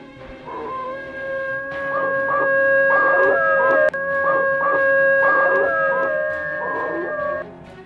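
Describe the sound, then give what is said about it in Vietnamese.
Wolves howling at the moon near a village beside an old forest: sustained, wavering tonal howls with a steady harmonic drone, several overlapping cries rising and falling in loud continuous waves for about seven seconds, with no talk. “khi vô tình có nghe tiếng chó sói hú trăng cũng chẳng có gì là lạ. Ấy thế nhưng hơn một tháng nay, tiếng chó hú này làm cho mọi người trong ngôi làng nhỏ này ăn không ngon”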